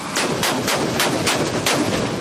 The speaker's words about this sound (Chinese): 车载发烟装备发射烟幕弹，在高空形成大面积复合型烟幕